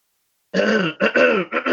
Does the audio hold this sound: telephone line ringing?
no